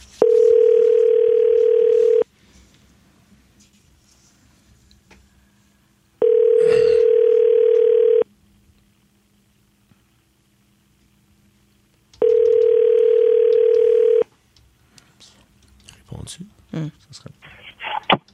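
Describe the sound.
Ringback tone while placing a phone call: three steady, loud, mid-pitched buzzing tones, each about two seconds long and separated by pauses of roughly four seconds, with faint talk and rustling in the gaps and after the last tone.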